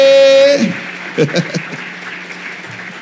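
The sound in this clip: Applause and cheering from a church audience welcoming a guest during a morning service: a steady wash of clapping that holds throughout, with a brief voice or shout breaking through near the middle.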